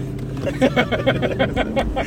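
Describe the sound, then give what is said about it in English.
Engine of a car driven very fast in a video game, a buzzing motor tone that pulses in rapid, evenly spaced surges across the short clip at moderate loudness. “He's just driving extremely fast now in the podcast.”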